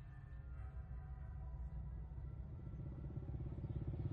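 A motorbike carrying two riders heads to a village around midday, its faint, low engine putter running steadily with a rhythmic pulsing that grows clearer toward the end.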